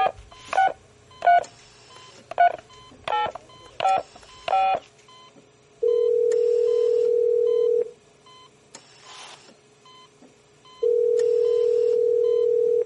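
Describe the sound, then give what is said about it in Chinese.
A late-night telephone call: a quick series of keypad dialing beeps, then two long, steady ringback tones separated by a silent pause. “电话里的嘟嘟声响了好一会儿，那边才接过来。”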